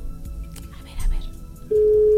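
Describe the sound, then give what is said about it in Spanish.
A telephone call is dialed: brief lively talk gives way to a loud, steady telephone tone that starts near the end and holds to the finish. “Para marcarle a María Elizabeth. Ojalá que conteste. Yo creo que sí. Mírala, mírala, mírala. ¡Marcando!”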